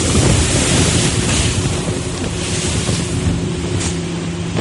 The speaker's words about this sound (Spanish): ¡El viento está rolando!